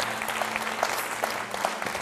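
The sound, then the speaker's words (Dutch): An audience applauds in a continuous, even patter of many hands clapping at moderate loudness, with no voices standing out. “Laten we die mensen een applaus geven.”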